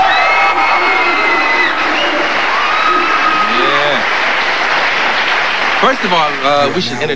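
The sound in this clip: An audience applauds and cheers as a music group is welcomed onto the stage before performing, a loud continuous roar of clapping with whoops and shouting voices rising near the end.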